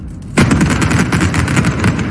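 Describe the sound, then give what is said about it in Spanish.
Demolition blast felling the first chimney of the old coke batteries in Avilés: a sudden loud burst, then a sustained, rough rumbling crackle. “Era septiembre del año 2023 y con ese barrenazo caía la primera de las 5 chimeneas de las viejas baterías de Coc de Avilés.”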